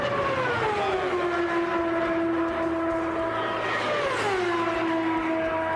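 A loud, buzzing Indy race car engine howls steadily on a record-pace qualifying lap near 237 mph at the Indianapolis 500; its harmonic whine sinks in pitch early, holds level, then drops again near the end, with no voices.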